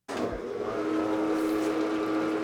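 Steady mechanical hum of an industrial-sized dough machine in a commercial bagel kitchen in Anchorage, rolling round lumps of dough into ropes; starts abruptly and runs even and continuous with a low tonal drone.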